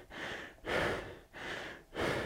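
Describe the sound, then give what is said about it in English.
Heavy breathing after a hard workout, with about four long, rasping breaths alternating steadily in an even rhythm. Every other breath is slightly louder, and no talk is heard. “my heart rate was up at 86% rather than 83, so I think you can tell by the heavy breathing”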